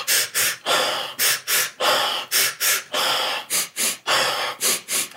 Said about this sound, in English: It's actually a Sufi technique where you just do two shooting inhales and a sigh.